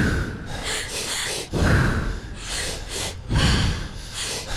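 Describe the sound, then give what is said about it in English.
Breathwork with a pattern of two quick inhalations and one exhalation: a rapid series of loud, forceful breaths rushing through the nose and mouth, alternating sharp gasps and heavier outward blows with almost no pause between them. “So it's like two breaths in, one breath out.”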